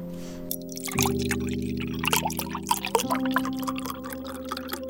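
Water is poured while a ginger drink is being made, heard as many small splashing, trickling ticks over a steady low hum.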